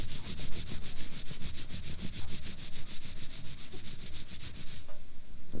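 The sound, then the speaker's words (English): Palms of the hands rubbed briskly together make a steady, rhythmic swishing with many quick even strokes. It is dry and breathy, continues alone, and stops shortly before the end. “Okay, here's the sound. You rub your palms together. Like this.”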